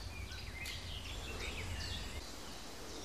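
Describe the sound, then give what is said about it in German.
Young woodpeckers call excitedly among other birds: faint, high, repeated chirps over a steady soft background hiss. “Jetzt klingt es eher so wie Alltagsgeschäft. Mit Ausnahme dieser Spechtaufregung, was aber, glaube ich, eher mit den Jungvögeln zu tun hat oder mit den Jungspechten, die trainieren,”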